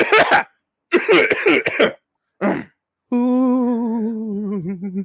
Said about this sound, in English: Can we pinpoint where that coughing's coming from? It is very aggressive.